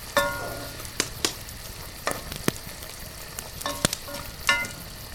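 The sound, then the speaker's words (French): Bacon sizzles in a frying pan, a steady hiss broken by a few sharp pops and crackles. No voices are heard. “L'air se remplit de l'odeur du lard qui grésille dans la poêle.”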